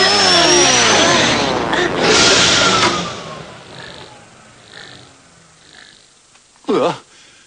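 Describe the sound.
A new prototype car with faulty brakes arrives in an animated series, its loud whining roar sliding steadily down in pitch over about three seconds before fading into quieter noises, with a short sharp burst near the end.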